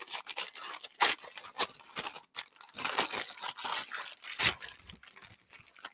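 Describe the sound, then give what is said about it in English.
Holiday gift wrapping paper is torn open as a present is unwrapped: bursts of ripping and crinkling, with a few louder tears and no voices. “Just unwrap this gift here.”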